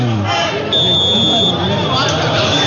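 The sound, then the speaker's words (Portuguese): A brief, thin, high, steady electronic tone signals the end of a football match at the Moisés Lucarelli stadium, sounding under a commentator's continuous excited speech and crowd noise. “49, você vai ouvir o sinal já de 50 e vai terminar o jogo.”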